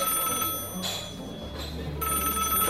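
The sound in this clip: A telephone rings in a small, inexpensive family eatery, sounding a few bright, repeating ring bursts over a low background hum, with no voices.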